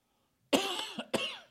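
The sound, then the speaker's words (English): Coughing from a tickle in the throat: a quick, fairly faint run of dry coughs, with two sharp bursts about half a second apart. “And you got a tickle in your throat. Excuse me.”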